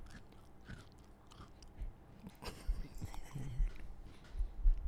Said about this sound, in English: then I'll take another bite at this point